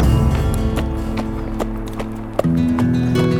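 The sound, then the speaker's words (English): Horse hooves clip-clop at a steady walk as a rider sets out at dawn. Sharp, evenly spaced hoof strikes sound over a continuous tonal background that resembles music. “He allowed the outlaws a week to learn of his coming, and when he rode out at dawn, only Tom Webb”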